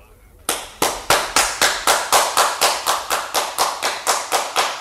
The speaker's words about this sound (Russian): Опять? Это действительно похоже на аплодисменты. Там наверху кто-то есть.